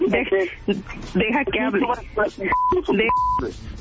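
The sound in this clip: Telephone call being placed: two brief, steady, mid-pitched tones sound in the second half, between stretches of continuous conversational talk.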